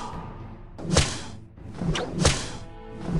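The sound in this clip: A whip lashes in a few sharp swishing cracks, each a quick whoosh ending in a smack, over a low, rough background rumble.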